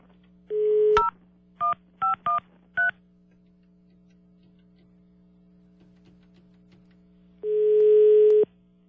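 Telephone keypad tones while a call is placed to join a caller on the line: a longer steady tone, then four short dual-pitch key beeps in quick succession, and another long steady tone near the end, all over a constant low hum.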